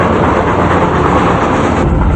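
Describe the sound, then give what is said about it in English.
Loud, continuous rumble of a train moving along rails, a dense roar without distinct clacks that holds steady throughout. “He steps onto the roof and looks ahead at the first train as they move closer to it.”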